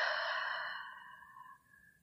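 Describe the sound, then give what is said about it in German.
A deep, slow breath is let out through the mouth during a guided breathing exercise. It sounds like a soft, airy sigh that fades gradually over about a second and a half. “Atme tief durch die Nase ein, durch den Mund aus.”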